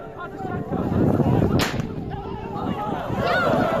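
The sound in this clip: A single sharp gunshot cracks out once amid a noisy protest crowd, just after tear gas was fired, standing briefly above a steady murmur of voices and commotion.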